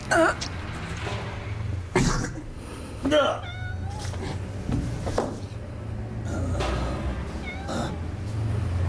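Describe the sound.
A cat meows a few times, with short, rising and wavering cries between stretches of talk and background noise.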